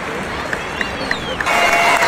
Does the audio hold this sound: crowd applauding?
yes